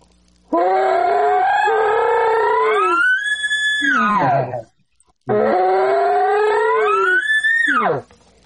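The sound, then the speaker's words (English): Two bull elk bugles, each beginning with a low, gurgly growl that climbs into a loud, high, whistling squeal with rich harmonics before dropping away, separated by a brief pause. “there's one bull that I hunt. He has kind of a gurgly sound at the start. It's kind of like a sound almost. So when he bugles, it's almost like.”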